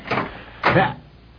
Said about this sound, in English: I don't dare open the door. Yeah, well, I guess I'll have to then.